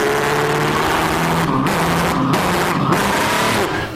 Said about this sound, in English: Oh, here's my driving away sound.